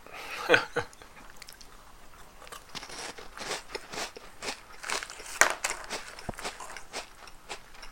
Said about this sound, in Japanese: リッツを食べてるのかマーガリンを食べてるのかどっちがメインなのか問題はある。